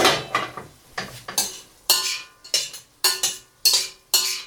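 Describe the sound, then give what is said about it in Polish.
Diced meat for goulash is stirred as it fries in a pan: a rapid series of about a dozen scraping, clattering utensil strokes against the pan in an uneven rhythm, with no talk. “Mięsko trzeba mieszać starannie, tak żeby każda kostka miała szansę opiec się dokładnie z każdej strony.”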